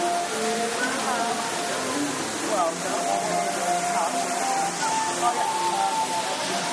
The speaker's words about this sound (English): I love the water feature with the waterfall and everything.